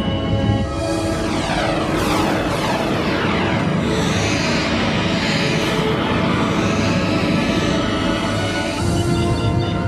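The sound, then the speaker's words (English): Spaceship thrusters engaging in a sci-fi sound effect: a loud, dense, continuous roar with shifting tonal bands running throughout, steady in level from start to finish. “Initiate transit mode, 3-axis stabilization. Aye, sir. Engage thrusters.”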